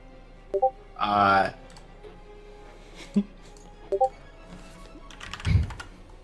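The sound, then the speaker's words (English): Scattered clicks of typing on a computer keyboard, quiet and irregular, broken by brief voices now and then. “He's typing something.”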